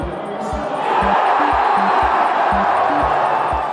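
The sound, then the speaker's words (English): Friends and strangers gathered to watch a World Cup match on TV make a dense, steady crowd roar that swells slightly. Regular low thumps pulse beneath it about twice a second. “That's the sound of friends and strangers gathered together to watch the World Cup on TV.”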